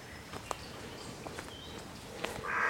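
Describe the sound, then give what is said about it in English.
Soft footsteps over a carpet of pine needles in an evergreen wood in the Brecon Beacons on a quiet morning: faint, muffled steps at an unhurried pace. “Just walking over a carpet of pine needles.”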